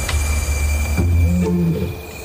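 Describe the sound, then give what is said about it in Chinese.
A lion's deep, rumbling roar carries steadily at full volume, with low tonal layers sustained from start to finish and no voices. “我们播放的吼叫声越多，他们就越兴奋”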